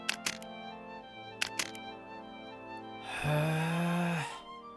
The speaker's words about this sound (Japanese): 私はカメラを構えて写真を撮った。